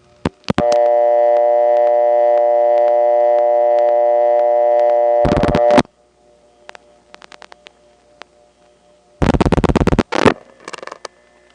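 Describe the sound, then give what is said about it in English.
Telephone line tones on a county PBX: a steady, harmonically rich tone holds for about five seconds, then gives way to noisy bursts and a quick series of clicks like dialing. “Let's call into the DeKalb County PBX one more time and get a busy, and you'll hear all sorts of crosstalk, including my saying hello and touch toning, and people dialing over it.”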